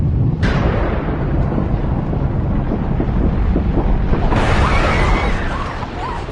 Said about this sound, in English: You guys, it's a thunderstorm. Lightning probably hit a transformer or something.